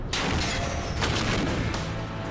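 A shoulder-fired RPG rocket launcher fires in a survival test. A loud, dense, roaring blast fills the whole clip, broken by a few sharp cracks, and it stays strong for over two seconds before easing slightly at the end.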